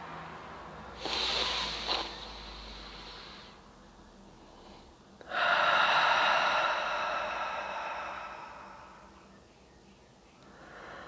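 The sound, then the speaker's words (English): A full breath in and a long breath out during a guided breathing exercise: a short, breathy inhale, a pause, then a longer, louder, airy exhale that slowly fades. “I would like you to take a full breath in and a long breath out.”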